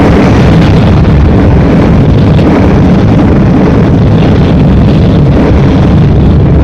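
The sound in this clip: Flamethrowers burn out a nest of monstrous creatures with a loud, dense, unbroken roar of rushing flame that stays steady throughout, with no voices over it.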